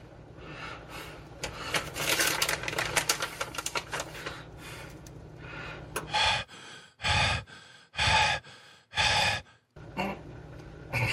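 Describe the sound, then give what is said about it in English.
Heavy, gasping breaths from someone making a mustard and sun-dried tomato sandwich. A stretch of clicking and rustling comes first, then several loud, separate breaths follow at a steady rhythm. “If you're out of breath making a sandwich, no more sandwiches.”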